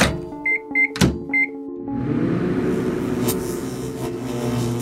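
A microwave oven starting up and running: three short keypad beeps and a thump, then a steady, continuous hum and whir that carries on to the end.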